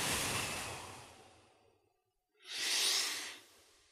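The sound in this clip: A long breath is blown out through cupped hands held in front of the face, loud at first and fading away, then after a brief silence a sharp, hissing breath is drawn back in during a breathing exercise.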